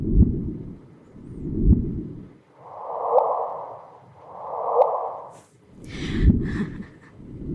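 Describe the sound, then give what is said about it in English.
A sonification of gravitational waves from two merging black holes plays as repeated soft whooshing swells, about six, each rising and fading smoothly, alternating between a deeper and a slightly higher hiss, with no voices. “And I can play that now for you. I think this is the sound of gravitational waves.”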